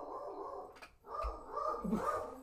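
A female dog barking, a few rough yaps and whines that run together at moderate loudness, with no talk over them.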